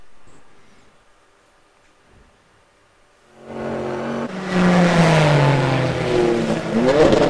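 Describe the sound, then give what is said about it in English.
A BMW M4 race car shifts down through the gears into Tiergarten during a VLN endurance race. The engine swells to a loud roar, its tone stepping down in pitch with each shift, then climbs again at the end. “the BMW M4 down the gears and into Tiergarten.”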